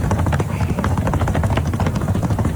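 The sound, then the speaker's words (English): Horse hooves clip-clop in a rapid, continuous patter, loud and steady over a constant broad rumble of background noise. “Look at this tap dancing ass horse. Nah, the horse can't carry you.”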